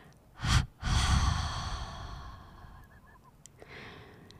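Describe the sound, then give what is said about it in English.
A deep breath is released after being held: a brief sharp burst of air, then a long, breathy exhalation that slowly fades to quiet, with no voices. “Take a deep breath in and hold it for the count of three. And then release the breath like this.”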